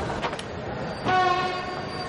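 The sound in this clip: A train stands at a station on a film's route to San Remo, giving off a steady mechanical rumble. A sustained horn tone rises out of it around the middle and holds to the end.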